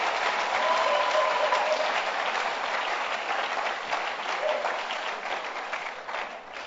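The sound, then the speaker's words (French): An audience clapping hands during a church service, a dense, steady roar of many hands that holds for several seconds and slowly eases in loudness. “Clap your hands for Jesus.”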